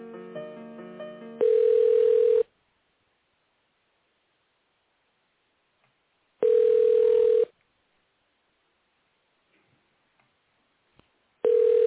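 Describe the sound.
Telephone ringback tones sound while a call is transferred: a brief jumble of tones, then three steady single-pitch beeps about a second long and roughly five seconds apart, with near silence between; the last beep is cut short.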